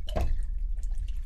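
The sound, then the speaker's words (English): Amaro Lucano liqueur dripping into a cocktail, one ounce poured in: a short liquid splash at the start, followed by a few faint, scattered drips against quiet background. “it's the sound of dripping.”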